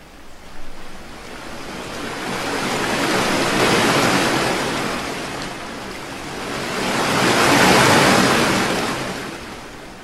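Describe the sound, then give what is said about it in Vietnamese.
Ocean waves crash and surge in two long swells, each building to a broad roar and then easing off, with no voices. “Đợt sóng này đến đợt sóng khác ập tới từ phía bóng tối mịt mùng, rồi lại tan biến vào trong bóng tối”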